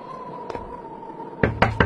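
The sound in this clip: Knocking on a door: one faint knock, then after a pause three louder, evenly spaced sharp raps. No voices are heard.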